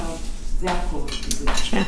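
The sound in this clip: Spoons and dishes clink in a few bright metallic chinks and clatters at a breakfast of bread and jam, mixed with brief talk.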